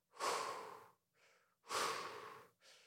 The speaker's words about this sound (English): Then take 3 deep, slow breaths, right?